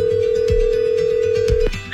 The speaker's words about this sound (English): You also have four rings to answer the phone. This is for $1,000. Let's make the cash call.